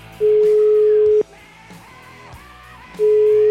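Telephone line tone while a call is being placed: a steady low tone lasting about a second, a gap of roughly two seconds filled with faint background noise, then the same tone starting again.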